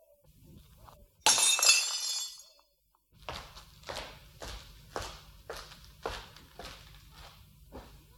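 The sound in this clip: A wine glass is smashed in one sudden, bright shattering crash with tinkling fragments, then a steady run of several footsteps follows.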